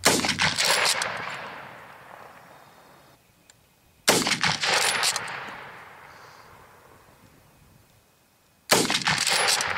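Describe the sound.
Three sharp gunshots from a bolt-action Lee-Enfield rifle fired at a steady aiming pace, roughly four seconds apart, each loud crack trailing off in a long fading rumble.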